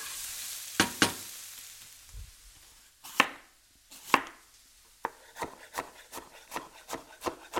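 Onions sizzle in a pan as they fry and caramelize while being stirred, a faint steady hiss, broken by sharp knife strikes: a few spaced taps at first, then a quick run of many.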